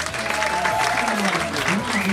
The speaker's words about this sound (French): Je vous demande d'applaudir